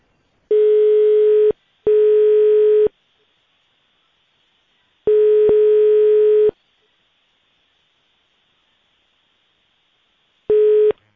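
A telephone line tone plays while a call waits to connect: four steady, buzzy mid-pitched tones separated by silence. The first two come close together, a longer one follows after a gap, and a last one starts at the very end.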